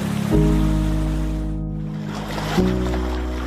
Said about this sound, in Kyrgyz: Азыр мына оң жак жактагы суу бул Ак суу дарыясы.